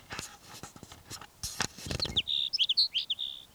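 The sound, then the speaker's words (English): A Sage Sparrow sings a faint, quick series of high, thin chirping notes. Soft clicks and rustling come before the song. “Sage Sparrow number 5.”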